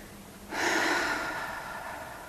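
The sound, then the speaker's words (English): A single long, deep, deliberate breath taken during a mindfulness breathing practice. The steady, soft rush of air begins abruptly, swells, then eases off slowly, heard alone. “And it can be helpful to start by taking 3 intentionally long, deep, and full breaths.”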